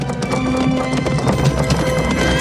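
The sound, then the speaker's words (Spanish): A horse gallops frantically across open countryside: rapid hoofbeats drive a loud, rhythmic pattern throughout, layered over sustained tonal sounds. “Ella las coge, las sacude con fuerza y el caballo galopa frenético hacia una cortada.”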